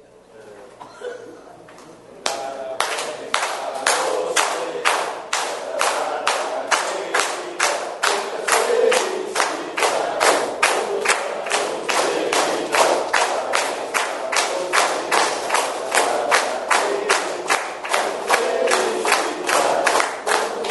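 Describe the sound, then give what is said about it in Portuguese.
City council members sing Happy Birthday together to a fellow councillor. After a quiet start with some talk, many voices sing over steady rhythmic clapping that keeps an even beat to the end. “eu convido todos os presentes, todos os vereadores, para podermos cantarmos parabéns para o colega vereador Valdevino Mantzke.”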